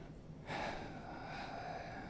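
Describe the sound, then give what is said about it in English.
Heavy breathing directly on a microphone: after a quiet start, a sudden airy rush of breath begins and carries on as a sustained, faint, breathy hiss. “what everyone wants is someone breathing heavily on the mic.”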